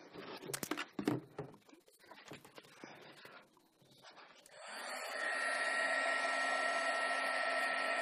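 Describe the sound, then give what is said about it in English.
Handheld heat tool drying and heat-setting paint on a board: a few handling clatters and knocks come first, then a loud, steady blowing whir starts partway through and holds to the end. “I do want to speed up the drying process by using a heat tool. So I'm going to heat set the color.”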